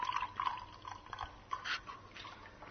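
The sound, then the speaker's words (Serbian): Milk, 125 ml of it, is poured into a glass, making a faint, continuous liquid trickle with small splashes and drips throughout. “Sipat ćemo 125 ml mlijeka u čašu.”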